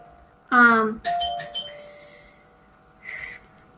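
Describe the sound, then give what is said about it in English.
A household doorbell rings with two bright chimes, the second tone ringing on and slowly fading, followed later by a short, quieter sound. “sorry about that doorbell, my son is eager to get back in.”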